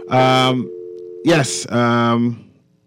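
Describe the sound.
A steady telephone dial tone hums on the line after a caller has hung up, while a voice talks over it.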